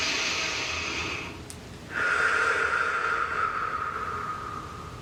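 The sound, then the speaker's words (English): A deep breath taken during a guided meditation: two long, soft breathy rushes separated by a short pause, the second one carrying a faint whistling tone, heard alone. “So go ahead and close your eyes and take a nice deep breath.”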